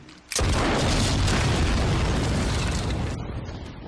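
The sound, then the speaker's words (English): A bridge being blown up produces a sudden, loud explosion that swells into a dense, roaring rumble for several seconds. It then drops off sharply into a quieter fading tail, with no voices. “That very loud noise you hear is Rick Grimes blowing up a bridge”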